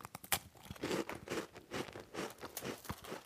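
Crunching of crisp bricelet wafers being bitten and chewed, with many dry, crackly crunches in an irregular rhythm and no talking.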